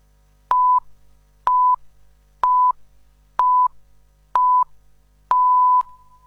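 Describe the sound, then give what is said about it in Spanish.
Six beeps of an hourly radio time signal in Buenos Aires. The steady mid-pitched tones come about one second apart, and the sixth is held noticeably longer. No voices are heard. “Sonó el top.”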